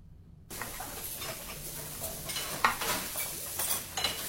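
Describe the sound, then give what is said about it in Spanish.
Food is cooking in a pan, with a soft, steady sizzle and light clinks and scrapes of stirring against the cookware. The sound is faint, starts after a brief silence and carries no voices. “Estamos cocinando algo rico, algo delicioso, algo nutri-sabroso.”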